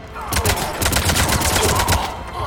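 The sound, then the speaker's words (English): Rapid gunfire in a video game: many loud, dense shots burst out in quick succession across the whole clip, with a low hum beneath. “Liara, I'm sorry I shot you. Babe. Babe, I didn't mean to shoot you with that gun.”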